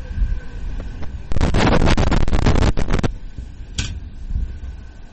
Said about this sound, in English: Now the wind's starting to pick up a little bit here.